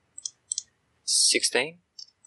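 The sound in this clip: Typing on a computer keyboard during a tabletop role-playing game session: a few sharp, isolated key clicks, with a brief burst of vocal sound between them.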